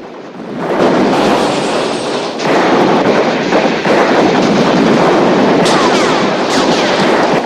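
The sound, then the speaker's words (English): Police automatic rifle fire pours into a house in a heavy barrage. A loud, continuous roar of rapid shots with scattered sharper cracks follows a quieter opening second and briefly dips twice before surging again. “The roof of the house groans and subsides under the ferocity of the barrage. The toilet cistern shatters as it's riddled with bullets.”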